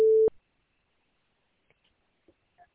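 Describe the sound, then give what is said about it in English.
A single short, steady, mid-pitched beep from a voicemail system marks the start of recording. Near silence follows, with a few faint clicks. “You have reached the voicemail system. Please leave your message after the tone.”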